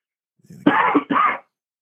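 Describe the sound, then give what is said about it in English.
Coughing and throat clearing brought on by allergies: two harsh, rasping bursts of hacking, each a rough scrape from the throat, with a short gap between them, loud and alone without any talk. “So my allergies are completely screwed up. If you couldn't tell, me hacking and trying not to die.”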